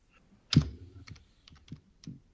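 Typing on a computer keyboard to search for a calculator: a loud first keystroke followed by a few lighter, irregularly spaced clicks.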